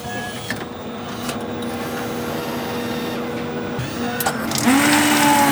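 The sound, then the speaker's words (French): A machine runs a rinse cycle, flushing its pipes after each treatment so product does not build up. A steady, dense mechanical whirring hum with faint clicks swells louder near the end as a rising whine joins in. “Et après chaque intervention, on fait un rinçage en fait, pour pas qu'il y ait de produits qui s'accumulent au niveau des tuyaux. Je peux vous en faire un si vous voulez. Ça vous fera un petit peu de bruit.”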